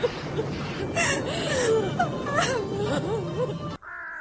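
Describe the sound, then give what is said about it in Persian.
A woman cries steadily, wailing and whimpering with a wavering, sobbing pitch that rises and falls throughout, before the sound abruptly cuts off near the end. “گریه نکن خانم جون ما تنها نمیذاریم قول میدم گریه نکن خانم”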